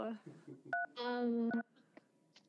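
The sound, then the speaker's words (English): A phone keypad gives one short, quiet beep when a cheek accidentally presses the number three, with people talking around it. “That was a beep on your phone. My cheek did press a number three.”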